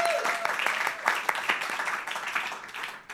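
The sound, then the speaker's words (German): An audience at a live gala show applauds with steady, dense clapping that stays fairly loud throughout, sharp individual claps standing out, with voices faintly under it. “Applaus für den Kilian.”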